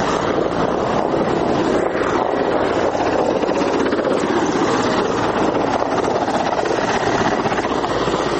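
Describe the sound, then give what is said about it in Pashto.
Three Mi-15 military helicopters of the Afghan forces circling overhead make a continuous, loud, steady rotor roar mixed with wind buffeting, with no pauses and no voices. “زموږ پر سر د افغان ځواکونو درې هغه جنگي می 15 هلیکوپټر هم ګرځي”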